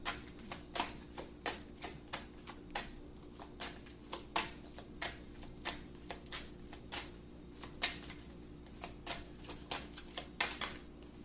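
Tarot cards being shuffled and drawn for a reading: many quick, crisp snapping and riffling clicks in an uneven rhythm, with no talking.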